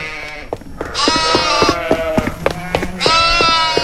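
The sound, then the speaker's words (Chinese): A newborn lamb, just born on snow in freezing cold, bleats a few times. The bleats are loud, wavering and harmonic, separated by short gaps, with some soft clicks and handling noise in between. “我把羊羔抱回来了。他要冻坏了！”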